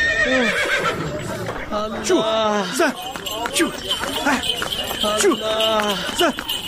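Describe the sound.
A horse neighs several times over the rapid clip-clop of hooves pulling a horse-drawn carriage, with people talking loudly over the sounds.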